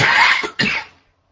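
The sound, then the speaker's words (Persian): Two harsh coughs come in quick succession from a participant with an open microphone in an online discussion. A short dip separates them, and silence follows. “این میکروفونتون رو قطع کنیم بچه‌ها اگر چیز نمی‌کنین، چون یکی سرفه می‌کنه.”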